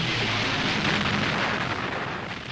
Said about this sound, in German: Mit vernichtender Wucht trifft jede Bombe ihr Ziel.